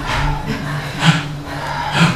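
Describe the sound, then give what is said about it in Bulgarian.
Rapid, forceful bhastrika yoga breathing: rhythmic breathy bursts about once a second over a steady low drone. “Гръдно вдишване, рязко вдишване. Хайде, бастрика. Ще подишаме така не за дълго, едно 20 минути.”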